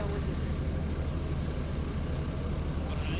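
A city bus engine produces a loud, steady low rumble with a broad roaring drone that holds at an even level throughout.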